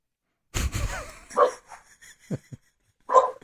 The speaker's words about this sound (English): I don't know if you can hear my dogs barking.